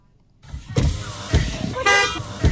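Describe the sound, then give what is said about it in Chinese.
Cars moving slowly along a narrow road into a village, with a low engine rumble, a few dull thumps and a short horn toot in the middle. “当天下午，狭窄的进村道路车辆通行缓慢”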